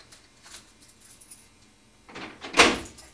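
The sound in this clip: Keys jangle softly at a door being locked, followed by a sharper metallic clunk of the lock turning. The sounds are faint and sparse, with no talk.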